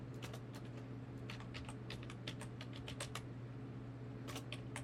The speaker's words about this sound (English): Well, I'll just go to the place I buy them from, and I'll type it in.